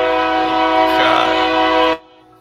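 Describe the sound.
A passing train sounds its horn in a single long, loud, steady blast over a low rumble, then cuts off sharply, leaving a faint hum.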